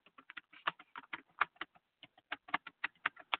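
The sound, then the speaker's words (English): Fingers type on a computer keyboard in a quick, uneven run of many crisp plastic key clicks, heard alone without talk. “I will do this as I type.”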